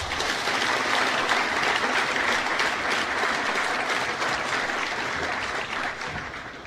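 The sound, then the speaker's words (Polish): Applause for new students at a technical university matriculation ceremony, a dense and sustained roar of many clapping hands that holds steady and eases off slightly toward the end. “Poproszę o gromkie brawa dla wszystkich.”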